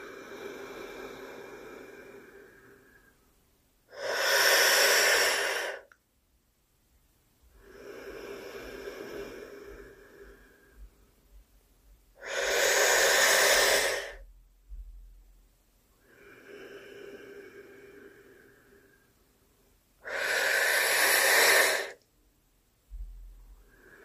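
Forceful breathing during a pranayama yoga exercise: three loud, rushing breaths stand out, with softer, longer breaths drawn in between them. No one speaks.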